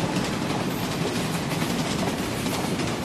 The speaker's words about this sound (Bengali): এমন সময় উল্টো দিক থেকে ছুটে আসা একটি ট্রেন বিকট শব্দ করে বেরিয়ে গেল পাশের লাইন থেকে